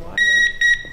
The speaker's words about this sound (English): What you're hearing right now is that wand finding something metal under a student's shirt. It's her underwire bra.